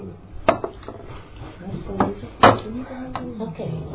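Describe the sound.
A door is pushed shut during a meeting, giving a sharp thud near the start and a louder knock midway, with smaller wooden knocks and quiet voices around them.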